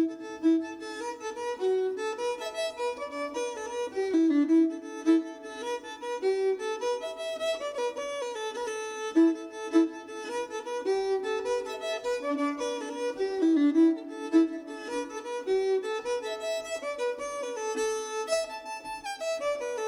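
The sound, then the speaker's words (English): Irish jig played on a solo fiddle: a lively, bouncing melody of quick bowed notes in a steady lilting rhythm, played alone with no voices. “So we're going to take a jig, and this jig's called the Lilting Banshee. I'm not the world's greatest Irish fiddler, but it would sound something like this.”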